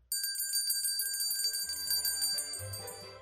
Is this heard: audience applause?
no